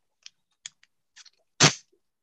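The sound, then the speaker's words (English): A piece of Dacron fabric torn by hand: a few small, sharp clicks, then one short, loud ripping burst that quickly fades. “So here's the piece of Dacron. You can see that it tears”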